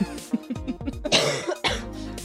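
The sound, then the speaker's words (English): A woman coughs repeatedly in a quick run of harsh, throaty bursts, some short and some more drawn out, with no talk around them. “Coughing. She's coughing.”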